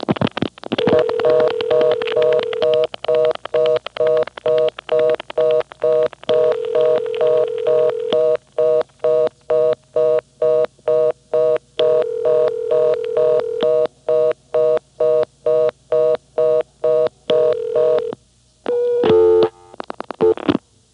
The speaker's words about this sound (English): Okay, now dial 5, 6. Four more digits.